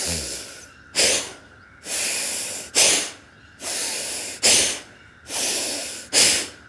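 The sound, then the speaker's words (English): Deep breaths in and out in a guided breathing exercise, with the shoulders lifted on each inhale and lowered on each exhale. Loud, airy breaths alternate between longer steady draws and shorter forceful rushes over several cycles, with no talking. “So inhale, fill in the complete chest, lift your shoulders up. And exhale, shoulders down, exhale out completely.”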